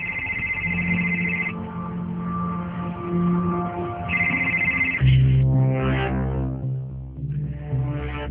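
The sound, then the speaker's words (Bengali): A telephone rings late in the evening with a melodic electronic ringtone, a bright repeating phrase over sustained lower tones that continues the whole time without talk. “তারপর সেদিন প্রায় রাত 9টা নাগাদ তৌসি phone করলেন জেসিকে।”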